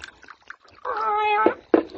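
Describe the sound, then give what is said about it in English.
A cat on a bar meows, first a long, drawn-out tonal meow, then a shorter, sharper one after a brief pause. “Hush up, cat.”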